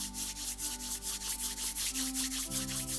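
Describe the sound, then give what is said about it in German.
Hands rubbing together in quick, rhythmic back-and-forth strokes, many soft swishes in a steady pulse over faint sustained tones. “Und wir reiben unsere Hände ein bisschen”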